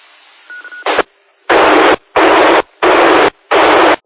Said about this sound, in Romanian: Din păcate, nu a trecut modulația. N-a trecut modulația. Ai deschis repetorul, dar nu am auzit modulația.